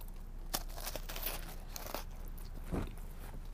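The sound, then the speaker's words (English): Crisp crunches of teeth biting into a New England-style cannoli with a fried shell and sweet ricotta filling, a few quiet, sharp cracks spaced apart with soft chewing between them. “But it's like a New England cannoli. Let me take another bite.”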